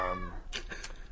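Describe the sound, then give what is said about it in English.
A cat meows: a short, tonal cry followed by a few softer, breathy noisy bursts. It is moderately loud and heard alone. “the cat hears me. You get me, Freddy. Freddy gets it.”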